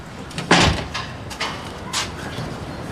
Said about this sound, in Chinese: 没东西了吧？ 没了。 我锁门了啊。